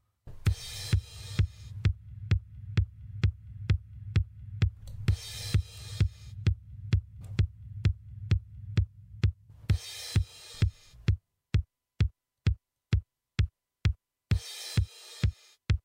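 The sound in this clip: Kick drum sample played with reverb: a steady, even run of deep thumps, regularly joined by bursts of hissy, noisy texture. Toward the end the thumps stand alone, sharper and more widely spaced.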